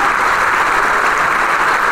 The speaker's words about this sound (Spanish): El maestro le aplaude a Camerata, el maestro invitado.